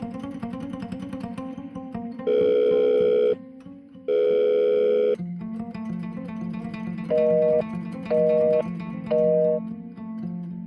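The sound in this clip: An unanswered telephone call: two long ringback tones, then three short, evenly spaced beeps, all over a continuous background sound.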